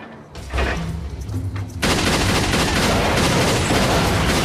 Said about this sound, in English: He shoots at the motorbikes parked outside, and they burst into flames.